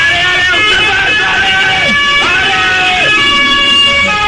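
The siren of an arriving police van sounds continuously and loudly as sustained steady tones, with a few brief downward bends.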